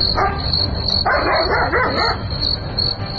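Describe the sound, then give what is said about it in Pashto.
A dog barks at night in a few muffled bursts over a constant background hiss and a steady high-pitched tone. “دلته خوشی نه ښکاري، نه پوهېږم چې دا سپی ولې غاپي.”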